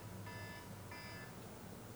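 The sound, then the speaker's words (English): An electronic alarm goes off in two separate bursts of a steady, high-pitched tone. Each burst sounds thin and fairly faint above a constant low hum. “And that's my alarm.”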